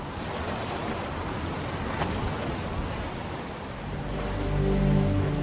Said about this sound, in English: In the ocean, wind blows spray off the peaks of cresting waves.